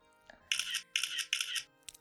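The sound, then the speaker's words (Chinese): Three short hissing shutter bursts from a phone camera taking a photo, evenly spaced, with a faint click before them and another just after. “拿你手机给你爸拍张照片，留个纪念。”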